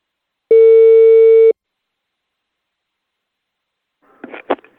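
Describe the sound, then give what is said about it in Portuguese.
A telephone line tone sounds while a call is placed: one loud, steady, mid-pitched beep lasting about a second, then silence until a brief faint sound near the end. “Eu vou ligar agora pra Dona Prudência”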